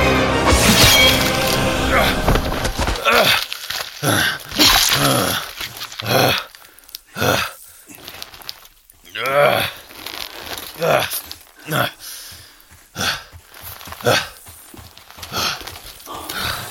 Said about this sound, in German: Selbst fast schon ein wildes Tier, wich er den riesigen Pranken des Löwen aus und drehte sich mit seinem Schwert, schlug zu und spaltete dem Tier den Schädel.